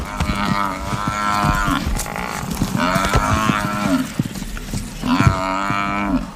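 Deep, drawn-out bellowing moos from an African buffalo with an old wound on its back while lions from two prides attack it, the loud calls coming in several long, harmonic bursts.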